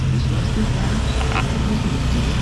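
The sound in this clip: Heavy road traffic in a jam gives a loud, continuous low rumble of idling and creeping engines, with steady roadway noise and no distinct passing vehicles.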